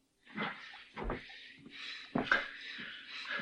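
A cellar trapdoor is shut and locked: a few heavy wooden thuds and bangs with rattling clatter, separated by short pauses, then a quieter knock at the end.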